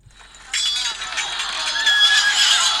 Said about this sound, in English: And that's a cavalry coming in behind to rescue the assailant.